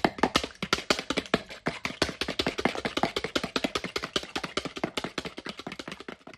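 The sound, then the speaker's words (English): A fork beats eggs in a bowl for a plum pudding: many rapid, steady clicking taps continue throughout, fairly quiet, with no talking. “so I'll just get a bowl to whip up the eggs. Just get a fork now to beat up the eggs.”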